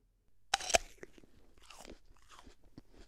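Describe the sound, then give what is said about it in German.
Someone biting into an apple: two sharp, crisp crunches in quick succession, followed by softer, irregular chewing. “Da beißt jemand in den Apfel. Und wenn man in einen Apfel beißt, dann arbeiten sie, unsere stärksten Muskeln, unsere Kaumuskeln.”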